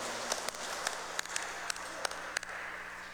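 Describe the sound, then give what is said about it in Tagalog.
Scattered claps during a church Mass honouring fathers on Father's Day: several sharp, faint, separate claps over a low, steady background hiss. “atong palakpakan ang atong mga amahan. Happy Father's Day.”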